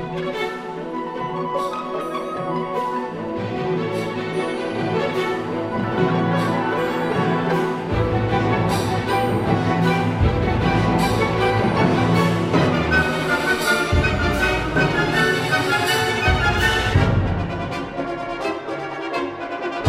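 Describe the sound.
Loud orchestral music for a ballet's frenzied infernal dance. The full orchestra drives forward with dense, pounding rhythms and sharp accented strikes, and it stays at a high, sustained intensity throughout.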